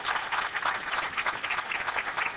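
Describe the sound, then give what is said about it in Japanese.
Sustained applause from an audience sending off a departing lecturer: dense, even clapping that stays steady throughout, fairly quiet, with no talk over it. “もう一度盛大な拍手を持ってお送りいただきたいと思います。”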